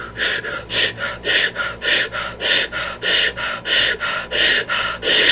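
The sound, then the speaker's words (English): Forceful breaths of a breathing exercise, loud and rhythmic, follow one after another at an even, quick pace, each a sharp airy rush, with no talking. “So we're gonna start the breath, 10 breaths. Come with me in 3, 2, 1.”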